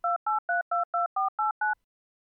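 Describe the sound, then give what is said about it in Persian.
A telephone sounds eight short two-tone beeps during a call, in quick, steady succession with slight changes in pitch, then falls silent. “شماره اون دوست نازنینش رو گرفتم و بهشون زنگ زدم”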